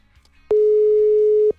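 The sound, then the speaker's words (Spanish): A busy tone from an unanswered WhatsApp call: one steady, loud electronic tone lasting about a second, starting and stopping abruptly, with near silence around it. “no nos contesta por WhatsApp.”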